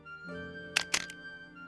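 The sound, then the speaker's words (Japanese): A camera is taken out and handled at a traditional Japanese inn, giving a few faint, sharp clicks and rattles close together over a low steady background hum. “カメラを取り出してファインダー越しの景色を覗き込む。”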